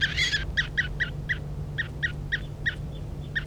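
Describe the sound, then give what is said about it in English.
A bird being handled gives a rapid series of short, sharp, high calls at a fairly steady pace over a low, constant hum. “This is bird 3:35 being handled.”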